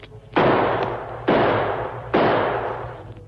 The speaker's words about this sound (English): Three more shots. Three more. But the last bullet, I must save it.